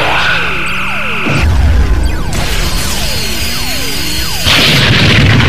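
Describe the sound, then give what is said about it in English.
Spaceship phaser weapons fire during a sci-fi space battle, with several descending whistling beam sweeps over a loud, roaring, crackling din and sudden bursts of noise between shots. “Fire at will. Phasers fire. Phasers fire.”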